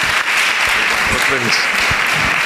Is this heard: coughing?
no